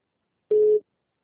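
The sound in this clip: A telephone busy signal on a repeat call: one short, steady electronic beep at a single unchanging pitch, lasting about a third of a second, then silence.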